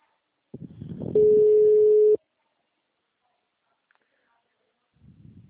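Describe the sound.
Ringback tone of an outgoing telephone call: one steady, low-pitched tone lasting about a second, preceded by a brief burst of rustling noise, then silence with faint noise near the end.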